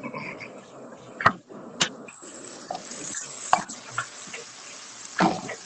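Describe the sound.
Eggs being stirred in a bowl make a faint, soft swishing and scraping, punctuated by a few sharp clinks of the utensil against the side.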